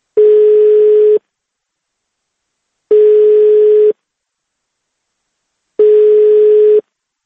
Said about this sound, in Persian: تکرار به تکرار به وی زنگ میزدیم تا با خود وی نیز گفتگو کنیم، ولی هر دفعه از آن طرف خط این صدا را میشنیدیم